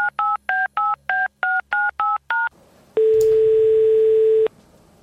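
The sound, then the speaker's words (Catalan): Telephone tones while a call is placed: nine quick touch-tone beeps in an even rhythm, a short pause, then one loud steady tone lasting about a second and a half. “Anem a trucar amb Miquel Deulofeu.”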